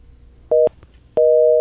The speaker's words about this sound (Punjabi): ਕਾਲ drop ਹੋ ਗਈ ਹੈ।